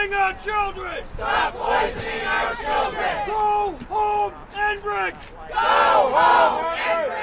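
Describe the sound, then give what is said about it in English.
Protesters chant loudly at a natural gas compressor station construction site in Weymouth, with many voices shouting short rhythmic phrases in repeated bursts and a brief break between each line. “That's the sound of protesters at the site where construction has begun on a controversial natural gas compressor station in Weymouth.”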